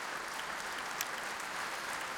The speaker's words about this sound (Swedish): Och här i Berwaldhallen applåderas nu Sveriges Radio Symfoniorkester ikväll under ledning av den brittiske dirigenten Nicholas Cullen.